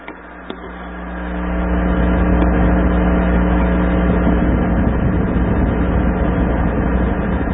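Whirring hum of a computer fan motor with a microphone placed close to it, swelling over the first couple of seconds, then holding a steady, even drone.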